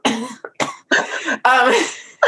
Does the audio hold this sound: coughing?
yes